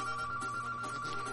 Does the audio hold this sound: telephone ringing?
yes